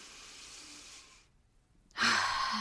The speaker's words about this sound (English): let's breathe in what was in alignment for us this week and breathe out what was out of alignment for us this week